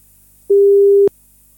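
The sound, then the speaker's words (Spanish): A telephone line tone sounds while a call is being placed: one clean, steady, mid-pitched beep lasting about half a second, heard alone with no voices. “Ahora vamos a ver si es que nos contestan los chiquillos. Parece que ahí estamos ya llamando.”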